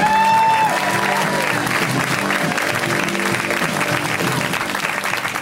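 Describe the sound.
Loud audience applause welcoming a comedian to the stage at a comedy show, a thick, continuous crackle of many people clapping that begins at full strength and tapers only slightly over several seconds.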